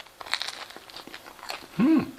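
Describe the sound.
Crisp bites and chewing on a plain bread roll eaten without any spread: a few crunchy, crackling bites and mouth noises, then a short hummed voice near the end.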